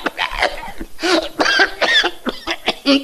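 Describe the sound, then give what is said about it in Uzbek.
An elderly man coughing, sick with a persistent cough: a rapid run of rough, hoarse coughs and throaty bursts follow one another without pause for about three seconds, fairly loud throughout. “Bir otaxon betob bo'lib qoptilar. Yo'taladigan bo'lib qoptilar.”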